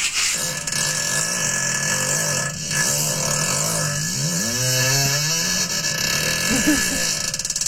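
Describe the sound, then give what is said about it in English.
A long, loud fart buzzes and sputters for several seconds, its pitch wavering up and down like a small revving engine, with no talk over it. “That's real. That's a real fart.”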